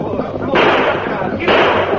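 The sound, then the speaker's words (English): Two gunshots ring out in a radio western drama as a fleeing rider on horseback fires at his pursuers. Each is a loud, sharp blast with a lingering rough tail, and a steady noisy background runs underneath. “You on the black. Rein up or we'll blast you full of lead. He's shooting.”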